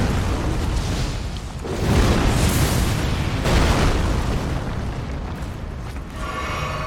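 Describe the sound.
A mine explodes after hitting a pole in a video game, with rumbling, booming blasts that swell a few times over continuous loud game noise.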